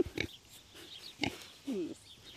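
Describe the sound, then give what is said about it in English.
Hand-raised piglets oink as they crowd in close, giving a few short, fairly loud grunts and squeals with quiet gaps between them. “Now the piglets are coming up to us. Yes, they are. Ooh, are you looking for a treat?”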